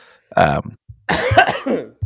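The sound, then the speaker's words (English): A person coughs a few times in harsh, throaty bursts, the middle one longest and loudest. “how I muted that after I coughed”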